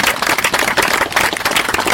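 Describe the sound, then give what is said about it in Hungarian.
An audience at a memorial ceremony applauds a man being honoured, a loud, continuous patter of clapping that pulses slightly throughout. “egy tapsot hadd kérjük.”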